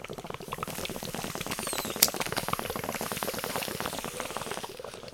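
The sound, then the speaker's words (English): A bong bubbles in a continuous, fast, faint gurgle of liquid with dense crackling pops and no voices. “Listen to this, yeah. Yeah, hashtags. That's how it works. Like, bong noises.”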